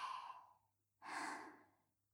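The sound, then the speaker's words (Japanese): A deep breath drawn in and then let out, as a mother guides a nervous child: two soft, breathy rushes separated by a short pause, quiet and heard alone. “でしたら、ママと一緒に深呼吸しまちょうか。大きく息を吸って、”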